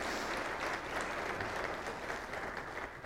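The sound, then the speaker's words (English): Congregation applause at a church service, welcoming seventh graders who had led prayer and worship. Dense, steady clapping holds at an even level for a few seconds with no talking. “Let's welcome them and also let's put our hands together for them.”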